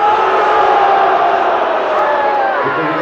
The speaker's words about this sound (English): I think there's some yays mixed with the boos.